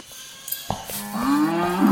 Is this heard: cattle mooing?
yes